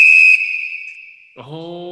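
A piercing high whistle blast marks a two-minute warning. It starts sharp and loud, then thins and fades out.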